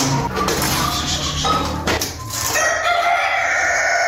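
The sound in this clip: Domestic chickens cluck and a rooster crows at a small household poultry farm in Tarinkot, Uruzgan, Afghanistan, a busy, dense mix of bird calls throughout.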